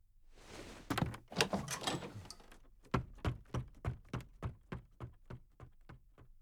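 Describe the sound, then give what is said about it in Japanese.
A door being opened, first a rough scraping rattle, then a long run of evenly spaced knocks or clunks with a steady rhythm. No voices are heard. “ほら、扉もこれで開くぜ。”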